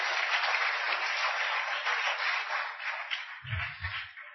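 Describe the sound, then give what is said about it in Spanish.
Congregation applause during a church service: sustained, even clapping from many people that holds a steady, moderate level throughout. “Den un aplauso a Cristo en esta bendita tarde.”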